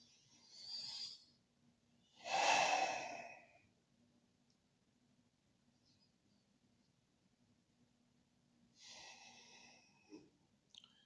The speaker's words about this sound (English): we'll take two breaths together